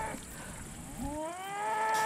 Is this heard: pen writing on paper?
no